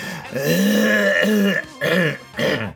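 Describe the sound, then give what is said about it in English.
Throat clearing from a person whose throat feels coated after eating ice cream: three voiced, rasping bursts, a long one followed by two shorter ones, loud and alone. “I think you should just call this the throat clearing episode where we're gonna muscle right through it.”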